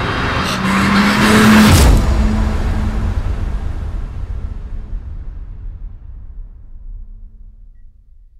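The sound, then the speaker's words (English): A car swerves out from behind a truck's trailer: a loud, broad roar with a brief descending squeal near the start, then a long rumble that slowly fades. “I'm greeted with the blinding glare of a set of headlights swerving from behind my trailer.”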